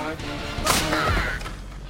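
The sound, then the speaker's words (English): A wooden plank is smashed over someone's back during a brawl, giving one sharp, crashing whack over steady background noise. “Upstairs, Saul smashes a plank over Carol's back.”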